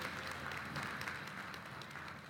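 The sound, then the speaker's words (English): Faint, steady applause from a church audience greeting a visiting pastor and his wife, heard as an even, continuous patter of clapping. “Give the Lord a hand for their lives.”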